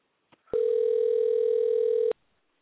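A telephone call ringing out while waiting for an answer: one steady electronic ring tone lasting about one and a half seconds, preceded by a short faint click, then silence.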